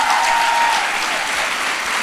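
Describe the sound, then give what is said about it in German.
Loud, even applause from a crowd carries on without a break, a dense rush of clapping throughout. “Ein Applaus, oder? Die gibt sich wirklich.”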